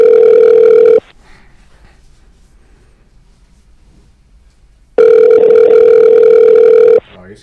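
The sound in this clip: A telephone call rings out on the caller's line as a ringback tone: a steady, loud mid-pitched buzz lasting about a second, a quiet gap, then a second buzz of about two seconds.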